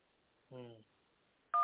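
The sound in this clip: A telephone number being dialed on a keypad, with a short, bright touch-tone beep near the end after a brief buzzy tone.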